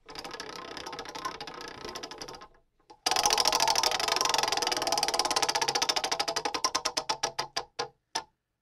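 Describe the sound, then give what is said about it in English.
A spinning prize wheel ticks rapidly. A first run of clicks dies out, then a big spin starts loud and fast and gradually slows to widely spaced ticks before stopping. “One more spin on the wheel here. All right. Here we go. Big spin for this last one.”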